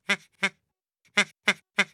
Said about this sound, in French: Inutile pour Gaspard de dire « coin, coin, coin, coin, coin »